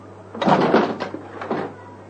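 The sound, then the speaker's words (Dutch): A handcart being tipped upside down, heard as a short rumbling clatter of bumps and knocks lasting about a second before it settles. “Nou, wat doe je nou, man? Belachelijk figuur, hè? Gooit die hele handkar ondersteboven.”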